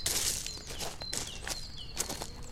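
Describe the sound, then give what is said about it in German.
Footsteps walk across at an even pace, a steady series of soft, faint treads roughly half a second apart, with no talking. “Kommen Sie, wir gehen hinüber zum Doc.”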